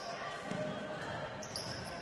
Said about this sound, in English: Dribbles right, picks up in the corner looking for help.